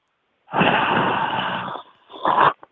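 Heavy, phlegmy breathing into a phone: a long rough breath with a rasping texture, then a brief pause and a second shorter breath, ending in a faint click.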